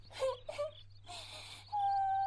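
A father's child crying and wailing, a few short sobbing cries followed by a longer drawn-out moan, all fairly faint.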